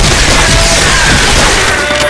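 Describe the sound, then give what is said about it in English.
Heavy gunfire from a Soviet assault team's weapons, including light machine guns and a bazooka-type rocket launcher, forms a loud, continuous roar with no clear gaps between shots. “They quickly set up their assault team equipment, light machine guns, a bazooka-type rocket launcher, and other sundry Soviet field weaponry. Not waiting for the rest of their comrades to land, they opened fire.”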